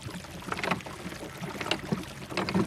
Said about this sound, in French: Dans le fond de l'embarcation, elle trouve des rames. Elle les prend et pagaille quelques minutes.